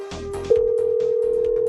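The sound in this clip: A telephone dial tone plays before a call is placed: a steady, unbroken tone begins about a third of the way in and holds to the end, with fainter mixed sound underneath.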